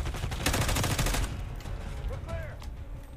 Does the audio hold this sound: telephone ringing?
no